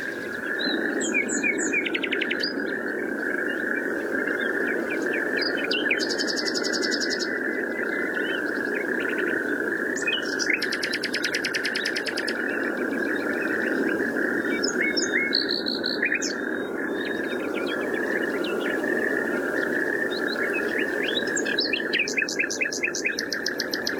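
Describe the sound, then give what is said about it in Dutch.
A bird sings non-stop through the night, repeating bursts of high chirps and trills over a steady background noise. “Non-stop is hij aan het zingen. Echt een prestatie voor zo'n vogel. Die blaast zijn longen eruit de hele nacht.”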